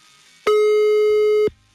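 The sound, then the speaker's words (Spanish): A telephone line tone plays while a call is being redialed: one loud, steady, buzzy beep held for about a second, then a faint low hum. “Estamos marcando nuevamente, ¿eh?”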